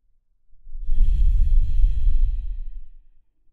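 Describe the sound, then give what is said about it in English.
A slow breath drawn in and out through the nose, a soft airy rush with a low breathy rumble that swells, holds for a couple of seconds and fades, heard alone without talk. “In and out through your nose, fully expressed breath. Take another inhale here.”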